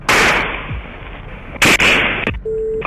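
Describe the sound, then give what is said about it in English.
Gunshots ring out during an active shooting with police on scene: a few loud, sharp, harsh bangs cut through a steady hiss, followed by a brief steady tone. “We have shots fired out here.”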